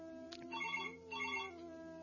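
A telephone rings for a listener call on a call-in program. Two short electronic ring bursts sound faintly over a low, steady hum.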